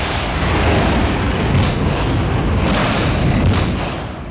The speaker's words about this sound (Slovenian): Zdaj mečejo ročne bombe iz hotela.